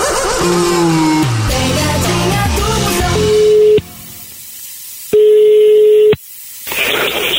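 A telephone ringback tone on a prank call follows a stretch of music: two steady, loud tone bursts separated by silence, then a hiss of line noise.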